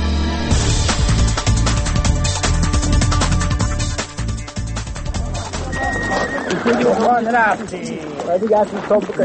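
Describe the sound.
Horses whinny in a mountain valley in the Afghan Pamir as arriving travellers hand over their mounts. Several wavering neighs stand out in the second half, after a stretch of dense, busy clattering.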